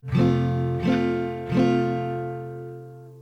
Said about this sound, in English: The first example is a bar chord in the first fret with the E chord shape, and it should sound like this.